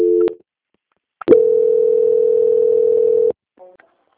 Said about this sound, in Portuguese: que eu vou transferir você para o controle de qualidade, que dará continuidade na sua contratação. Então, imagina. Transferência.